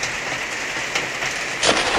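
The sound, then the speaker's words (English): Rain falling as a dense, continuous hiss of many tiny impacts, steady throughout with a brief louder surge near the end; no voices. “Hey, lady. Get out of the rain.”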